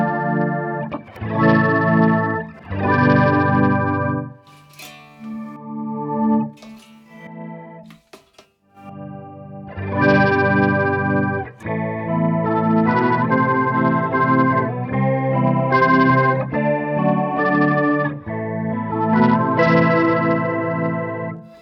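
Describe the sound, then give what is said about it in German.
Electric guitar through an octave pedal with the lower and upper octaves turned up and the dry signal removed, giving an organ-like tone; sustained, rich chords ring out in phrases separated by short pauses. “wenn du jetzt dann die untere Oktave, die obere Oktave reindrehst und das Originalsound rausdrehst, dann kriegt man diesen orgelmäßigen Sound.”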